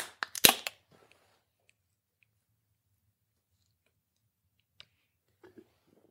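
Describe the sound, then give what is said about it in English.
A pump-action beer shotgunning tool punching into a beer can: a rapid cluster of sharp clicks and snaps at the start, then near silence broken by a few faint ticks. “we're going to rotate the tool. Hold the beer can in place to the mouthpiece. Then you're going to put your mouth on the mouthpiece and shotgun.”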